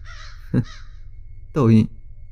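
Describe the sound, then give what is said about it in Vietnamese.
Crows caw outside a window: a short harsh caw, then a second, longer and louder caw about a second later. “khi thấy ở bên ngoài những con quạ đang bay đến đậu kín cửa sổ phòng cô ta. Quạ là loài chim mang đến sự xui xẻo. Tại sao chúng bay đến đông như thế này?”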